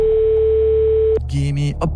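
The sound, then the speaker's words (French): Telephone line tone as a radio show places a call: a steady electronic tone sounds alone for about a second, then breaks off into voices and other sound. “C'est parti, on appelle quelqu'un. Nous appelons Johanna.”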